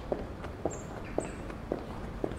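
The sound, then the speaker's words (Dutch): Footsteps of someone walking from the central station to the parliament building: five evenly spaced, light steps in a steady rhythm over faint background noise. “Ik loop er daarom vanaf het Centraal Station in één streep naartoe.”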